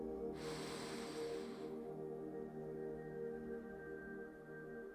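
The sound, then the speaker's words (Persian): A single deep inhale drawn during a guided meditation, a breathy rush lasting about a second and a half before it stops and leaves only a quiet, steady background. “یک نفس دیگه با هم میکشیم دم”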